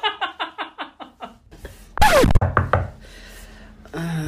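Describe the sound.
Knuckles rap on an apartment door in a quick, even run of seven knocks. Scattered louder noises follow afterward.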